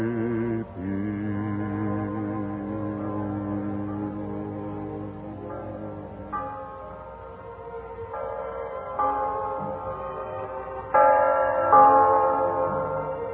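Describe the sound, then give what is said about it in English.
Bells ring out for Christmas 1945 in sustained, resonant tones with rich overtones. The pitch shifts several times, and the ringing swells louder near the end. No voices are heard. “hear that? The bells of Christmas 1945 ring out clear and free around the world to you. Listen to them.”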